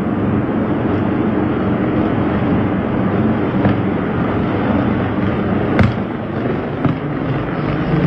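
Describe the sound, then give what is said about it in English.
Fireworks go off at a burning fireworks factory in California, a loud, continuous rumbling crackle with a few sharper bangs rising out of it. “this is, I think, a fireworks manufacturing place in California that caught on fire. Yeah, it had a little early 4th of July party.”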